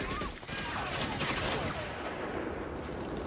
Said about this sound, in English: More of the fleeing civilians get caught by gunfire coming down through the grate in the passage roof.